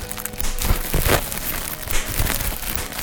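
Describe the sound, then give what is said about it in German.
Bubble wrap being handled and crinkled, a steady stream of crackling and rustling with a few louder crackles. “Das ist Bubble Wrap.”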